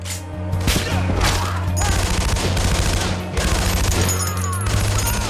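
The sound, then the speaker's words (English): Battlefield gunfire of high-velocity rounds crackles in a run of sharp bursts and cracks over a steady low drone, loud and unbroken throughout. “A man's cut down by a bullet. Another has his left arm blown clean off by a high-velocity round.”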